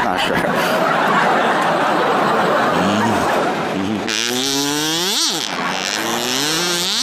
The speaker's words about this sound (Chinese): 这叫卡祖笛， 没见过， 学名叫哨。